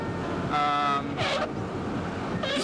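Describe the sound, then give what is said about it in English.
Loud windshield wipers squeak across the glass of a worn, falling-apart car, producing three shrill harmonic squeals spaced about a second apart over a steady low road and engine rumble. “There is nothing better than loud windshield wipers. It makes you feel good, it keeps you positive, awake, and just ready to drive 15 or more hours.”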